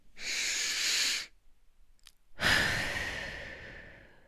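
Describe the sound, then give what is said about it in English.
Two long, deep breaths taken as a simple calming technique against anxiety: airy, breathy rushes of steady loudness separated by a short quiet pause, with no talking. “The first thing take four big deep breaths.”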